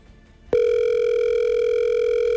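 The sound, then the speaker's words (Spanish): A telephone line tone plays while a call is left to ring: a single steady, unbroken electronic tone starts after half a second and holds at an even level to the end, with no voices. “Le voy a dejar sonar hasta el fondo para que vean que yo no cuelgo ni nada.”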